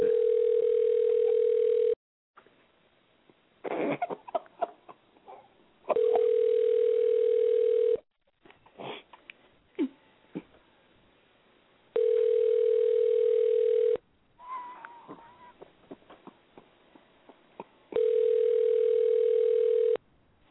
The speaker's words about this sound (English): These sons of bitches not answering. No voicemail again.